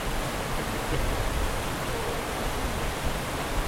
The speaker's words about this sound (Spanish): Tiene que ser en una pequeña cascadita. Una pequeña cascadita.